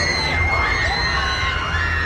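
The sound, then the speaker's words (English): People screaming on roller coasters at La Ronde amusement park in Montreal: a continuous wash of overlapping shrieks and crowd noise, with individual squeals rising and falling throughout. “That is a sure sign of La Ronde. Just the screaming.”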